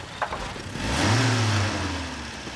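A car engine runs while the car is stuck in second gear with an overheated starter, a low droning hum that swells into a louder revving tone midway, then settles back to a steadier drone.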